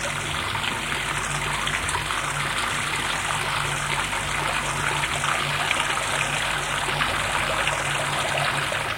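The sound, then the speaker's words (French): Running water as someone washes in a bathroom, a steady, even rushing and splashing that stays constant throughout, with no voices. “se réveille et va dans la salle d'eau se laver.”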